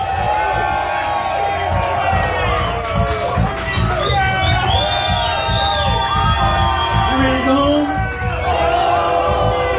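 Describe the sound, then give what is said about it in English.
An audience cheers and shouts loudly for a performer at a live show. Whoops and high yells rise above a steady roar of crowd noise that lasts throughout. “Make some noise for Lee Field.”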